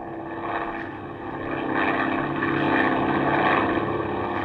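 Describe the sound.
Steady propeller-airplane engine drone from a plane climbing in flight: a continuous, layered hum with strong harmonic tones that grows somewhat louder partway through and then holds. No voices.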